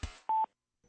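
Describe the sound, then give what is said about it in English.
A single telephone keypad dialing tone, a steady, clear beep lasting under a quarter second, following a brief burst of noise. “Dialed the number, press the number, dialed the number, that's the tone.”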